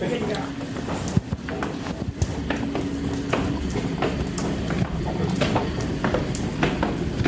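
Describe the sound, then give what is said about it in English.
A person and a guide dog climb stairs beside an escalator, making many quick, light footfalls and clicks. Steady, busy background noise runs under the steps. “And you're taking the stairs, so I'm on the escalator. Okay, Lizzie decided to take the stairs.”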